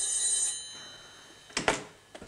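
A telephone bell rings in a workplace with a bright, high metallic ring that fades quickly. A few sharp clicks and knocks follow, with no talk.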